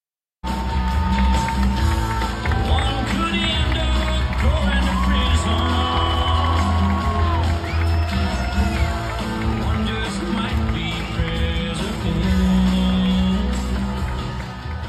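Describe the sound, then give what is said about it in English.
Crowd cheering at a Trump rally in Iowa: a dense, sustained roar of many voices with scattered whoops and shouts rising out of it, loud and continuous throughout. “Our engineer, Mr. Aaron Zommer, is queuing up that audio. That was from the Trump rally down in Iowa last weekend.”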